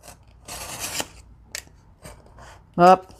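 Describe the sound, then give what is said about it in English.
Scissors trimming the tops of paper pages: a few rasping cuts separated by quieter gaps, ending with a brief voiced sound. “now we're going to do a little top trim because we have to free the pages”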